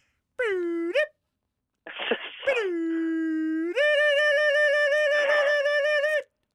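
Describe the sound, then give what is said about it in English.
A voice imitates a computer game loading from cassette: a held tone, a hissy crackling burst, a long steady pitch, then a higher, buzzy warbling tone, with brief gaps between the parts. “computer games, you used to have to load them on cassette, right? And it would take like 3 minutes to load a game, and it'll go...”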